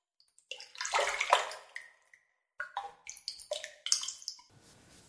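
Someone gets into a hot bath, setting water sloshing and splashing. A long swirling splash is followed by a string of shorter splashes and drips, with a soft hiss at the end.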